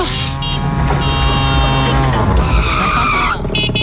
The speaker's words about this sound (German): Und mit dem Tuk-Tuk kommt ihr zu Tomorrowland. Ja. Und das Tuk-Tuk klingt ja so.